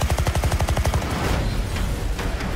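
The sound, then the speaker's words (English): Automatic gunfire in a film trailer for the war drama A Private War: a rapid, evenly spaced burst of many shots lasting about a second, then a loud rumbling wash of noise. “What happened? They've opened fire on journalists.”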